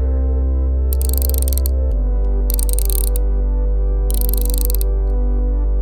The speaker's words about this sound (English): Lift up the central panel. Oh yeah, that looks out of whack. Realign the lip into the main intake again. Then tighten the heads on valves 1 and 4.